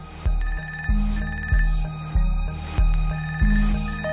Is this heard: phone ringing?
yes